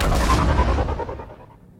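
A deep, rumbling blast as a shuttle launches in a sci-fi video game: a loud roar that starts at full strength and fades away within about two seconds.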